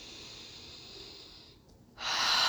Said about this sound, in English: Let's take a really deep breath together.